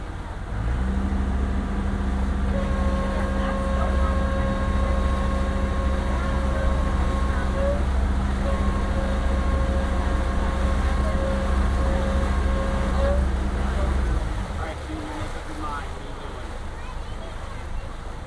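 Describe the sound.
Steady low engine drone of a passenger boat ride with a sustained tonal hum and whine, under a spoken safety announcement. The motor noise cuts out near the end, leaving quieter background sound.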